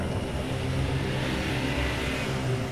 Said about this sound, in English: 2 vehicles pulled up through the mud.